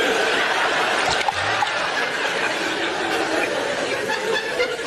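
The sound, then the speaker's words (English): Running tap water fills a sink with a continuous rushing hiss at a fairly loud, even level throughout. “Can you hear little Noddy filling the sink with water? Little Noddy's got a big sink”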